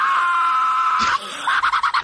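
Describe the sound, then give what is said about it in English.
A piercing sonic scream from a superheroine in a TV series: a loud, sustained, shrill high tone that breaks off, then returns as a rapidly pulsing, wavering cry. “But Black Canary, I didn't think they showed well enough just how piercing her Black Canary scream is. Just check this out.”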